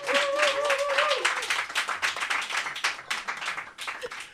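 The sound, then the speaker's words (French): Applause from an audience giving an ovation to a guest singer joining the performers. Dense, steady clapping runs throughout, with a brief voice or tonal sound near the start. “je vous propose maintenant de faire une ovation à Isla”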